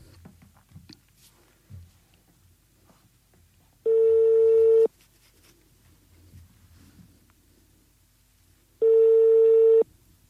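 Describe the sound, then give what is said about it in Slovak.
A telephone call is placed and rings on the line. Two long, steady ring tones of about a second each are separated by a few seconds of near-silence, over faint low background noise. “Tak voláme ešte tretiu Andrejku.”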